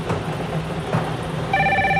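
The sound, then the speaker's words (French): A telephone ringing during a bingo game starts partway through as a steady electronic ring over a noisy, rumbling background and continues to the end. “Alors, le téléphone sonne”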